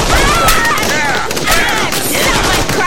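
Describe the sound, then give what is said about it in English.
Suppressing gunfire with shock rounds rattles out in a loud, dense, continuous volley of rapid shots that keeps going without pause. “Feel free to hit the deck while we lay down some suppressing fire. You're gonna kill them? Nah, these are shock rounds, so it should just knock them out.”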